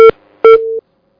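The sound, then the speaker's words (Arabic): Two electronic beeps as a telephone call is cut off: a short first tone, a pause, then a longer steady tone, each starting with a sharp click, followed by silence. “يبدو أن الاتصال انقطع على أختنا الكريمة”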